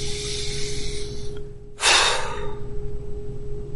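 A single deep breath in during a guided breathing exercise, a short rushing surge of air in the middle, set against a steady low hum.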